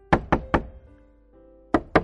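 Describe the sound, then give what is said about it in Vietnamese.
Knuckles rap on a door: three crisp knocks in quick succession, a pause, then two more. The knocks are sharp and fairly loud against near silence. “Có tiếng gõ cửa.”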